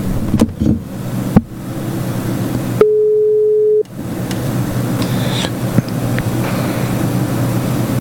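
Ringing tone heard while placing a phone call: one steady, low-pitched tone about a second long, cutting through a constant rumbling background noise.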